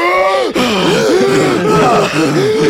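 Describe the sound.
A man breathes heavily, his loud, voiced exhalations groaning and wavering up and down in pitch in a continuous, strained series.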